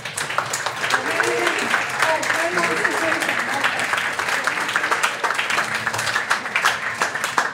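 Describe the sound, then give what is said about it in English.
An audience at an annual general meeting applauds a guest's courage after his long incarceration with dense, steady clapping that holds an even level throughout, while voices talk over it. “I want to give a round of applause for his courage and his”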